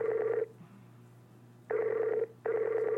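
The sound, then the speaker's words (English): Skype call ringtone repeating unanswered, with a bright burst of melodic tones, a long pause, then two more bursts close together, over a faint steady low hum. “know you love the sound of a Skype call. She's not picking up.”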